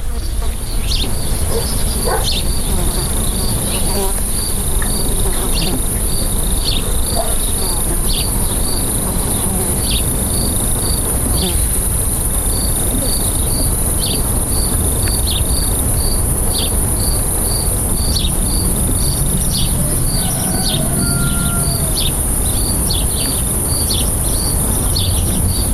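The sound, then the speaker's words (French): Countryside ambience filled with crickets chirping, a steady, loud high-pitched pulsing trill that repeats in regular bursts over a low, constant outdoor hiss. “Si tu n'entends que des sons de la campagne, bah c'est normal.”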